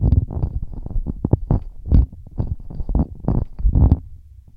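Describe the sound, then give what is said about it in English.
Handling noise from an Audio-Technica ATR2100x-USB handheld dynamic USB microphone passed back and forth between hands: many irregular, loud, low thumps and rubbing bumps tumble over one another with no speech. “Although this is a USB microphone, it takes the handheld dynamic form factor, so I will pass it back and forth between my hands so you can hear what kind of handling noise it”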